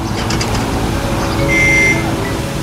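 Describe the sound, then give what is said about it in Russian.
A car's steady engine rumble and road noise as it approaches a young man riding a bicycle along a wet road, a constant moderately loud drone with no clear splash. “Струи воды веером расходятся за его спиной. Машина приближается. Вода накрывает парня с головой.”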